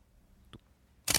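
Camera shutter clicking while photos are taken: a faint, brief tick followed a moment later by a louder, sharp mechanical snap.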